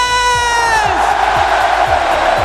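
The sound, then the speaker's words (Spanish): Loud crowd cheering and shouting in Pamplona at the chupinazo that opens the San Fermín festival. The roar is dense and sustained throughout. “Chupinazo. Julio, y desde hace una hora el sonido en Pamplona es este.”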